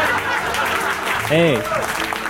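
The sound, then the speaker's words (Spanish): Canned applause sound effect, a short, even burst of crowd clapping with a voice briefly sounding over it. “Aplausos enlatados.”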